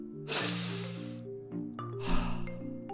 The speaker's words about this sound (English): Breathe in real deep for me, real quick.